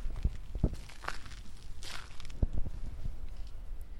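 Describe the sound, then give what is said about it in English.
Footsteps crunch on crushed stone in a small garden in Golden Gate Park, a few soft, uneven steps over quiet outdoor ambience. “You might even hear me walk in some crushed stone.”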